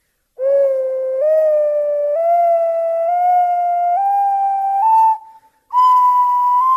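A beginner plays an ocarina, sounding a clear, loud whistling tone that climbs step by step through several notes like a scale. A brief break comes before a final higher note.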